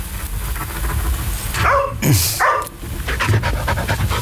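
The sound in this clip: A dog pants loudly in quick breathy bursts, with a few short barks and yips breaking in, steady and close-sounding throughout.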